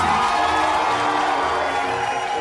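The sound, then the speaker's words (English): An audience at a tap-dance show cheers and whoops in a round of applause for a performer, a continuous, fairly loud crowd roar with shouted voices mixed through it and no pauses. “Let's give another Hoofers round of applause for Mr. Bill Bojangles”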